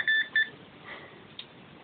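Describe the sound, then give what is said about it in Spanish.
Two short, high electronic beeps from a machine used to answer yes or no during a paranormal investigation, followed by near quiet with faint background noise. “Contéstanos a través de esta máquina. Dos pitidos, ¿no? Un pitido, sí.”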